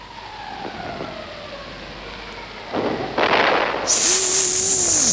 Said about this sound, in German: Das war eine Granate. Nein, das war ein Schrapnell.